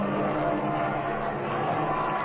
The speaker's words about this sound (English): Hey, look at that ME-109 right up there. See it? The one with the crimson streamer tied to the left strut. Whoever's flying that baby certainly knows his onions.